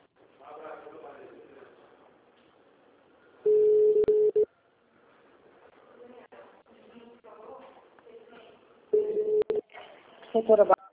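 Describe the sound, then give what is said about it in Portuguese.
Telephone tones while a number found online is being called: two steady, low electronic tones about a second long, separated by quiet murmured talk, with faint speech near the end. “Estou ligando um outro número aqui que eu achei na internet para ver se vai...”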